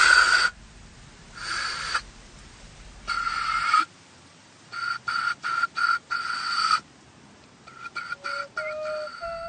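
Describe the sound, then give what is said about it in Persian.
Breath blown into a spent cartridge casing makes breathy, hooting whistles in a series of bursts. Some bursts are long and others short and clipped, and the tones shift between them, with quiet gaps in between. “پوکه رو بر میداره، جعبه رو کنار میذاره و توی پوکه فوت میکنه.”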